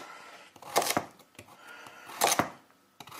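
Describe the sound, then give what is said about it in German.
A knife cuts carrots in two clusters of sharp, crisp strikes, with a few lighter taps in between and at the end. “Ja, obwohl, da werde ich jetzt ja bloß zwei oder so schneiden. Okay. Oder drei, machen wir drei. Okay. Weil, ja. Jetzt haben wir hinterher bloß den Geschmack der Karotten”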